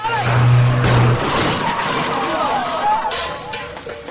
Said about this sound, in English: Robert listens as Mr. Fincham drives up in the Nissan. He drives at her.